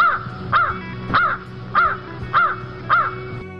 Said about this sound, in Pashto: کارغه پتنګ درک انگازې خورې کړې، کاخ کاخ کاخ.